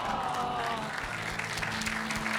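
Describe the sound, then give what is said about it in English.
Audience applause for a contestant leaving the stage at a comedy quiz show: dense, steady clapping from a crowd, held at an even level throughout. “Massive round of applause for Sam.”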